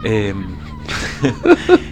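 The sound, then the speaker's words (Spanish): Manipulated seagull calls reworked into a rhythmic, musical pattern: bright, harmonic cries with gliding pitch, then a few punchy, evenly spaced bursts toward the end. “es el mismo soundscape manipulado para hacer algo ritmático estilo gaviota rapera”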